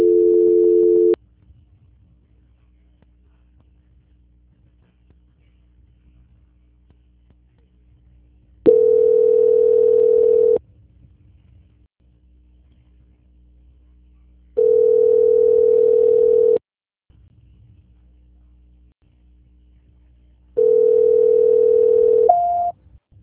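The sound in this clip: Telephone line tones while a call is being transferred: four steady, mid-pitched beeps, each lasting about two seconds, separated by long quiet gaps with a faint low hum.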